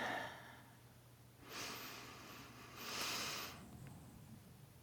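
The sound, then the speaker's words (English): Deep breathing, two soft, airy breath swells of moderate loudness over a quiet background, with no voices. “Take a deep breath in.”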